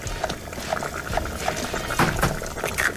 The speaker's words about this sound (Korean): 진짜 물 끓이고 스프 넣고 면발이 가면 뒤집어주고, 아, 지금 딱 그 달걀 넣는 소리, 그죠?